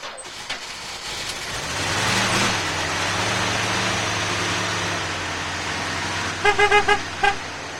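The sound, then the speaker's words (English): Old telephone company van engine catching and settling into a steady, loud running rumble, followed by a few short horn honks near the end. “Hey, look, you started it right up. Oh, yo, of little faith. Yes, I got it started.”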